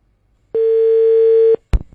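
A telephone dial tone sounds as a radio host places a call to a listener, a single steady pure tone lasting about one second, followed by a sharp click and a short burst of noise.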